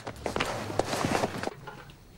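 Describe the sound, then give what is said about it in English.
Running footsteps hurry toward cemetery gates as an audio drama effect, a quick series of sharp steps for about a second and a half before the sound drops to quieter background. “Danny runs to the cemetery gates and rolls underneath.”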